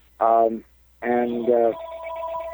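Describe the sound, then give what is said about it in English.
A telephone rings with an incoming call, steady electronic tones coming in after someone speaks briefly. “I've just got to get rid of this phone call.”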